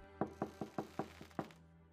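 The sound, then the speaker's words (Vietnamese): Knocking on a door, seven quick, fairly even raps in about a second and a quarter, quiet and hollow, with the next-to-last knock softer and no voices. “Ở bên ngoài có tiếng gõ cửa”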